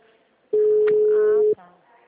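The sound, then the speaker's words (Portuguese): A telephone busy tone on a call to a client's number, heard as one steady low beep lasting about a second, with a voice talking over it. “Já tô ligando para cliente que você me mandou. Você me falou. O número está ocupado.”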